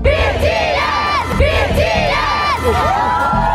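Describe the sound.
A huge crowd of concert fans cheers and chants at a sold-out stadium show by a South Korean band, with loud, continuous roaring and rhythmic, rising shouted calls repeating in waves.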